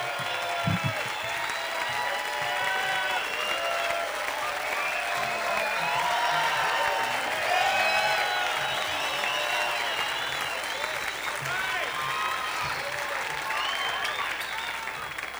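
Audience applause for three musicians at a live show, a dense, steady roar of clapping with some cheering mixed in. It holds at an even level for about fifteen seconds.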